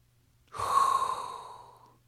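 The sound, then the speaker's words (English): A single hot breath is drawn in as a soft, breathy rush that swells quickly, holds for a moment and then fades away over about a second and a half, with no talk around it. “as there is only one thing left to do, and that is inhale a hot breath”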